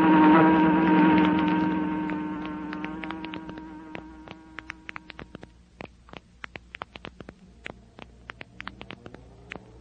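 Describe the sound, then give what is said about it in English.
A cheap, little-known make of electric fan runs with a loud droning hum that fades over the first few seconds, then continues softly under many sharp, irregular clicks and ticks. “Some fan, isn't it, honey? Feel that cool air.”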